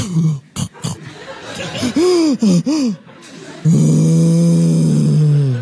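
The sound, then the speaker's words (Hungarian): A voice imitates loud snoring: rasping, gasping intakes of breath, then a long, steady, buzzing drone held to the end. “És innentől kezdve beindul a motor, tehát egy olyan elképesztő horkolást kell elképzelni, mint mondjuk a Gyűrűk urába”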